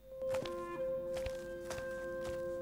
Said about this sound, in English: Grandfather Smed steps over the border that the youngsters have made from small rocks.